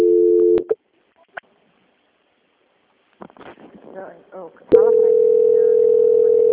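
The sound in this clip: Telephone line tones play while a call is being transferred. A short steady tone cuts off into a few clicks and a brief voice, then a long, even, mid-pitched tone holds to the end.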